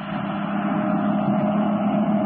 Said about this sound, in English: there's a car coming along the road. When it goes by, we might as well start after those trucks again.